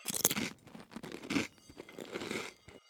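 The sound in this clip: Crisp crunching and biting into a vegan substitute version of a party dish, with a few sharp crackly bites followed by softer, irregular chewing and crinkling, heard alone without talk.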